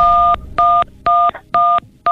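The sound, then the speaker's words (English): Telephone keypad dial tones: five evenly spaced, steady two-pitch beeps, each about a quarter second long with brief gaps between, loud and alone. “Wow, that's a first. Do you communicate via dial tones?”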